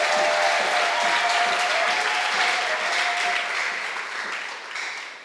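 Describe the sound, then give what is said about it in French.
Sustained applause from a church audience clapping for the Lord during a thanksgiving service, a dense, steady wash of many hands that holds evenly and then thins and fades toward the end. “Est-ce qu'on peut acclamer le Seigneur? Can we clap for the Lord?”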